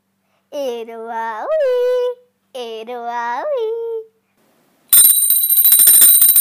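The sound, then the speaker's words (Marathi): An electric theatre bell rings loudly and continuously for about a second and a half at the end, the third bell before a play begins; two wavering tonal sounds come before it. “चला बसून घ्या. तिसरी घंटा झाली नाटकाची.”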